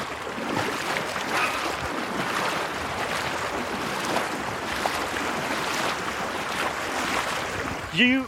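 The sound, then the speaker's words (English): Strong wind at the sea during a cold-water swim: a loud, continuous roar of gusting wind buffeting the microphone, mixed with the wash of surf, steady throughout with a brief tonal sound right at the end. “The wind's trying to keep you in today. It is. It's quite a strong wind. It's kind of pushing us back.”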